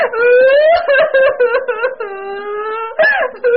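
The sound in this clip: A woman crying and wailing: loud, drawn-out sobbing wails with sliding, quavering pitch, broken by short catches of breath.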